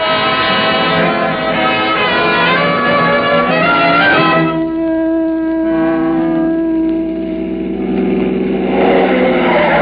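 Engine of a car driven fast around curves, a steady, loud mechanical drone with a shift in tone partway through, with no voices.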